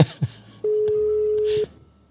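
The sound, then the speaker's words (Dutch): A telephone call being dialed: a single steady, mid-pitched line tone holds for about one second, framed by faint soft noises before and after it. “Wij gaan pogen te bellen met Leon Mazaruik van Karel Vijf.”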